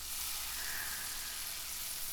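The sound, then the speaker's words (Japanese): Onions fry in butter with a steady, even sizzle, a continuous bright hiss that holds the same loudness throughout. “しんなりとするくらいまで炒めましょう。”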